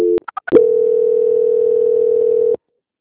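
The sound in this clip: Telephone tone during a call transfer. A brief tone and a few short blips are followed by a steady single-pitch tone lasting about two seconds, which then cuts off abruptly.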